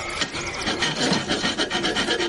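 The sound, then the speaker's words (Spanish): Rasping file strokes on a hoop, a steady run of quick, even scraping passes with a rough, gritty texture, continuous and fairly loud throughout. “Él lima un aro. ¿Pruebas tú? La niña está con él y lima el aro.”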